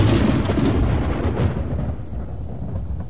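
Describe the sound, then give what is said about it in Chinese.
Violent thunder outside a house rolls as a deep, continuous rumble, loud at first and easing slightly in the second half, with no voices heard. “这时屋外响起猛烈的雷声”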